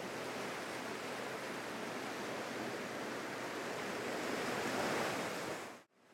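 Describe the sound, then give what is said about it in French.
Sea surf rushing against sandbanks beside a fishing village as the tide rises, a steady, dense wash of breaking waves with no pauses that cuts off abruptly at the end. “La mer monte, la marée est de plus en plus forte.”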